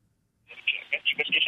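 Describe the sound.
Electronic telephone ring announcing an incoming call to a radio studio: a bright, trilling tone that begins after a short silence and pulses rapidly through to the end.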